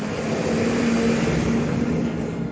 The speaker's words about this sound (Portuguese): Eu espero o caminhão passar. O caminhão passou aqui, tirou minha concentração.